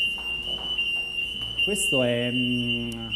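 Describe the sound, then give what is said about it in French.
Fire alarm sounding in a simulated fire drill at a company's Rome headquarters and training centre: a steady, piercing high-pitched tone runs throughout, and a voice with a stacked harmonic tone joins it partway through. “Ce que vous entendez, c'est une simulation d'alerte anti-incendie. C'est le système et l'alarme qui retentit quand il y a un départ de feu.”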